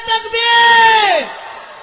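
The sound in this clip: A crowd at a religious sermon gathering shouts back a slogan in response to the Naara-e-Takbeer call, a loud, sustained, voiced cry that holds steady and then falls in pitch near the end before dying away.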